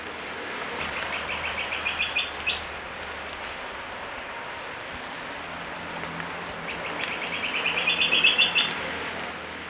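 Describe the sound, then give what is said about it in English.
Olive-backed woodcreeper song: two high trilled phrases of rapid repeated notes, each growing louder, over a steady hiss of insects. “Olive-backed wood creeper.”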